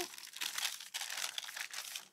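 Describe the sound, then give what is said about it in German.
Baking paper peeled away from freshly baked food gives a faint, continuous crinkling and crackling rustle in several uneven surges, with no talk. “Und wir haben also dann hinterher ein Ergebnis, wo wir das Backpapier schön abziehen können.”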